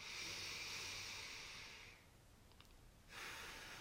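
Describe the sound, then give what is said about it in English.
Deep, full breaths drawn in and out through the nose make a soft, airy hiss. A long, steady breath fades into a brief lull, then the next breath begins. “Begin to breathe in through your nose and out through your nose. Breathe deeply and fully.”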